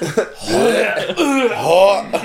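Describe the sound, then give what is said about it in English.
A voice imitating vomiting, with a few loud, drawn-out gagging and retching noises in a row, each a throaty, wavering heave. “For those of you out there with weak stomachs, we apologize for the throw up noises.”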